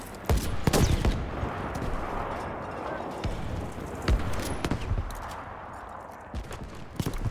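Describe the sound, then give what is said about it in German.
Gunfire in the video game Battlefield V: a few sharp, loud shots stand out over a dense, continuous layer of game noise. “Ey, die shooten echt wie scheiße. Warte. Ballern den mal kurz da weg.”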